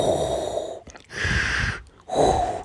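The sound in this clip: A voice imitates a masked villain's mechanical respirator breathing: three hoarse, rasping breaths separated by short pauses, moderately loud.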